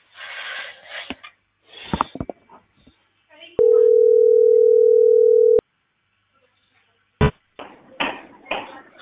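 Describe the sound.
A telephone dial tone follows a dropped call: one steady, pure mid-pitched tone held for about two seconds, with people talking before and after it.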